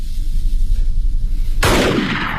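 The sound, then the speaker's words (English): A single loud gunshot, fired as a warning shot, cracks out sharply after a low rumbling background and leaves a long noisy decay. “Don't shoot, you bloody fool! That was a warning shot.”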